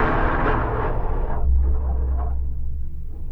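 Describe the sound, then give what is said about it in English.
Wind blowing through a cholla cactus on a windy day, picked up by a contact microphone attached to the plant: a deep, continuous roaring rumble with surging gusts, loud throughout and with no voices. “So this is a cholla cactus with a contact microphone attached to it on a windy day,”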